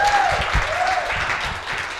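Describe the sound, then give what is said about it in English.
Audience applause, a short, even burst of many people clapping together at moderate loudness that carries on without pause. “Come on, clap for him.”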